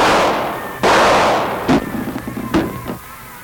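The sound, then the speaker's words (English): Gunshots from a police officer firing warning shots in a grocery store: several sharp, loud reports with short decaying echoes, the first ones strongest and the later ones smaller and spaced unevenly. “Better fire a couple of warning shots”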